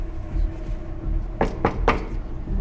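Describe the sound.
Someone tries to open a locked gate, producing three quick, sharp rattling clacks over a low steady hum.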